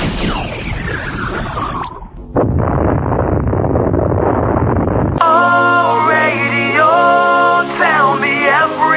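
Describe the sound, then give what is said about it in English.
Synthetic magic missile spell effect: a whistling sweep falls in pitch, then a rushing noise burst follows, and a loud, buzzy warbling tone with wavering rising and falling pitch takes over. “Goddamn casting magic missile.”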